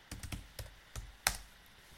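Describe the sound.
Keystrokes on a computer keyboard: six sharp, irregularly spaced clicks, the last one the loudest, with no talk over them.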